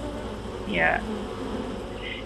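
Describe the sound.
Bee swarm buzzing inside a house attic, a dense, steady droning hum that holds throughout with a brief swell near the start, fairly faint and unbroken.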